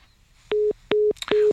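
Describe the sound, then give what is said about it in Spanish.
A telephone busy tone sounds after a dropped call: three evenly spaced, identical steady beeps, each with a soft click at its edges, over a faint background hiss. “como claramente usted se ha dado cuenta, la llamada se cortó y estamos rápidamente tratando de volver a conversar con Misael Zavala.”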